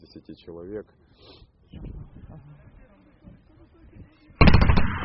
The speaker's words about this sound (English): Warning shots, says a Ukrainian soldier after suddenly firing his machine gun towards rebel positions in front of a group of journalists.